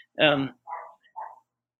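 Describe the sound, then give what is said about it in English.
Dog barking in a home with several dogs: a few short barks, moderately loud, with quiet gaps between them. “sorry if you hear the dog barking. I've got some dogs.”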